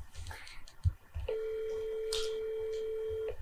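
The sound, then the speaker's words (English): A telephone call being placed: a few short dialing beeps, then a single long, steady ringing tone lasting about two seconds over faint background noise. “I'm going to give him a call.”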